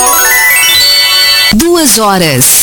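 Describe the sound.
The RFM radio station time signal sounds as loud electronic tones: a bright sustained tone, then two short gliding pitched notes, the last one sliding downward.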